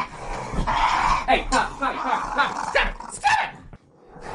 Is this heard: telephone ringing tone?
no